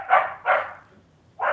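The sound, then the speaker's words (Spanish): Three sharp, high-pitched barks from a dog at home, the first two close together and the third after a short pause, each short and fairly loud against a quiet background. “Y tiene más encima un ladrido bastante agudo.”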